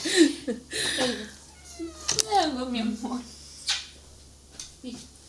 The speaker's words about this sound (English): And then the cat.